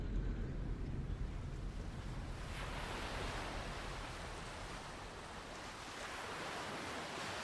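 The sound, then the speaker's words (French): Small waves stir tiny pebbles along a beach, making a soft, continuous wash of hiss and rustle that stays faint and even from start to finish, with no voices. “Des vaguelettes viennent par moments remuer doucement les minuscules galets qui forment un ruban le long de la plage”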